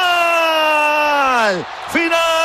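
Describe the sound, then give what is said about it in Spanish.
Shouting at the end of a football match in Atlanta, Congo against Uzbekistan: one long, loud, steady yell over crowd noise that drops sharply in pitch, then a brief second cry. “final del partido. Lo celebran, lo gritan, lo jalean, lo gozan.”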